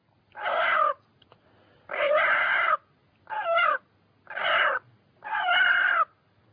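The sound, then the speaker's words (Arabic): Five loud, squawking calls from chickens, each lasting under a second and separated by short pauses, with a strained, harmonic tone and nothing else audible between them. “أو صوت الدجاج ده بيسموه نقنقة.”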